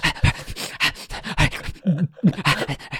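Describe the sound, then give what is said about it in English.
A voice imitates heavy breathing like that layered into tense film scenes: many quick, rhythmic, panting huffs in a steady run, with a few lower, voiced gasps partway through. “when they're in movies, they relay several tracks of breathing. So you hear like,”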